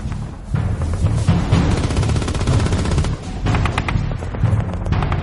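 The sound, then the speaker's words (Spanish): Gunfire as a small American garrison in the Belgian village of Lanzerath, at the edge of the Ardennes forest, fires on German infantry. Dense, loud, continuous shots and bursts crackle without a pause. “Lanzerath estaba en desventaja, pero abrió fuego contra las tropas enemigas”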